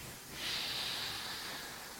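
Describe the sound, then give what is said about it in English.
Slow deep breathing during a calm lung-expansion exercise: one long, steady, airy breath that swells after a quiet start and then holds an even hiss to the end. “Breathe in. Breathe out.”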